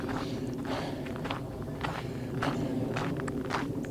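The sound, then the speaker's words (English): Footsteps of someone walking out along a trail, many steady evenly spaced steps at a moderate pace, fairly soft against a constant background hiss. “I'm all messed up on my run walk, but I'm going to walk out Harris Trail and then start back up on Grant.”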